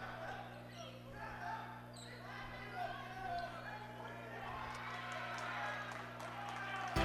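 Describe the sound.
A basketball dribbled on the court during a Ravenna vs St. Paul girls' basketball game: a few low bounces under a commentator's voice, with crowd murmur and a steady electrical hum.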